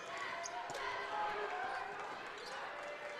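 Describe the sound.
A basketball bounces on a court during a game, its faint thuds buried under continuous excited commentary and crowd noise.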